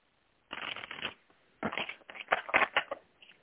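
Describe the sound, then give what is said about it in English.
Tarot cards are shuffled and pulled from the deck in a few dry, riffling bursts of papery flicks separated by short pauses, with no voices. “So hopefully we'll be pulling a card that resonates well with you today.”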